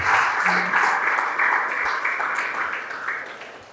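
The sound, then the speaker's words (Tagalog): A church audience claps together as an offering to God. The dense, steady applause eases slightly toward the end. “Siya pong the best clap offering sa ating Panginoon.”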